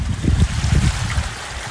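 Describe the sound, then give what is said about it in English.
Floodwater gushing down a bank behind a house, a continuous low churning roar with rumbling surges and no pauses. “The water came pouring down the bank behind her property, also tearing up her neighbour's concrete driveway. Today it was still gushing.”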